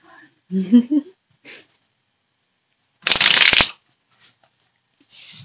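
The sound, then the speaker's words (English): Someone shuffles a deck of affirmation cards in one loud, crisp riffle lasting under a second, set between quieter breathy vocal sounds and near silence. “All right, now my little fucking affirmation cards.”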